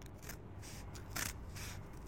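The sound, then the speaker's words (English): Real scissors cut into thick cardboard, making a few faint crisp snips in an uneven rhythm. “with real scissors. The student teacher cuts into the thick cardboard.”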